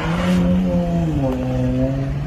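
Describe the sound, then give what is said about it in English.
Throaty engine drone from a 2015 Dodge Charger fitted with an aftermarket exhaust, held at a steady, loud rumble for a couple of seconds with a slight dip in pitch midway. “the quote-unquote agent was driving a 2015 Dodge Charger. We know that some Canadian law enforcement agencies use that vehicle. But if it's a government vehicle, why does it have an aftermarket exhaust system?”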